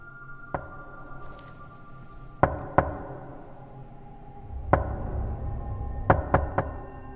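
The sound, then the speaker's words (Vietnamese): Knocking on a door: sharp, distinct knocks spaced irregularly over a low steady rumble, with a single knock, a pair, another single, then a quick group of three. “Trong cơn mơ màng, tôi nghe có tiếng gõ cửa vang lên.”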